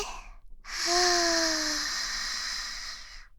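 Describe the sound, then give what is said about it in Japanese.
Slow, deep breath drawn in: one long, steady, airy inhale of about three seconds, starting full and easing off gradually, heard alone without talk. “このままゆっくり深呼吸をまた続けるよ。息を吸って、”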